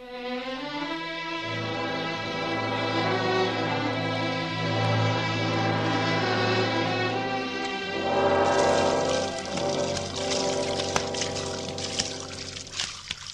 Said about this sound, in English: Why did you build a house with two bathrooms if you must wash your hands in my kitchen sink?